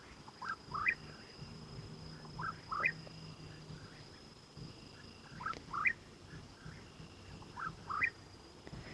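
A bird calling at dusk, giving short, bright chirps in small clusters that repeat every couple of seconds. The calls are faint over a steady, low outdoor background.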